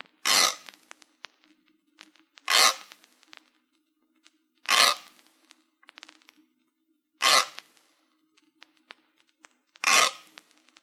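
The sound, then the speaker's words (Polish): Five evenly spaced bursts of a kitchen grater rasping, used as a stereo test signal panning from left to right. Each is a short, harsh, bright scrape, separated by near-silence over a faint steady hum. “Dźwięk tarki powinien być początkowo słyszany skrajnie z lewej strony, a następnie co 45 stopni przesuwać się do środka i dalej na”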